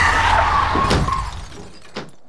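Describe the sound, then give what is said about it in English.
Car tyres screech under hard braking, then a loud crash with shattering glass, as a car driven near 60 km/h in a 50 zone on a residential street hits a small child running out from behind a parked car. A fainter second impact follows. “A small child just ran out from behind a car and Nick couldn't stop in time, just because he promised he'd be home half an hour ago.”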